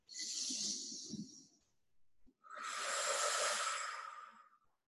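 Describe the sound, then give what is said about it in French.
Deep breathing during a guided relaxation exercise: one long breath, then after a short pause a second, longer and louder forceful rush of air, both soft and airy with no talk. “on expire fort par la bouche. On en profite, on est sur Zoom. Encore deux fois. Prenez une profonde inspiration.”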